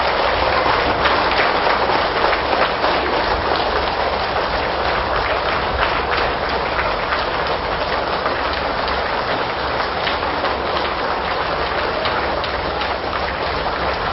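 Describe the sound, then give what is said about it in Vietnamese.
Long, sustained applause from a large gathering welcoming Buddhist monks into a lecture hall at a retreat closing ceremony, dense and unbroken like heavy rainfall, with a dull, muffled top end and no voices. “Toàn thể hành giả dương cao một tràng pháo tay để cung đón chư tôn thiền đức quan lâm.”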